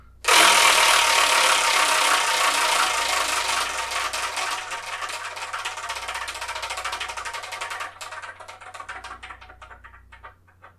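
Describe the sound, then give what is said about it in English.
A prize wheel spinning: a dense rush of rapid ticking that gradually slows and thins into separate clicks before stopping, heard alone without talk. “so let me spin it and see what we're going to see.”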